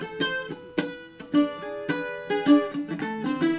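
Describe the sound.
A cuatro, a small string instrument, is strummed in a lively rhythmic pattern of ringing chords, with sharp attacks and shorter plucks between them, played alone.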